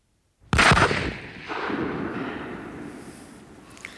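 A single loud gunshot rings out outdoors, a sharp crack followed by a long rumbling decay that fades slowly, with a faint click near the end and no talk.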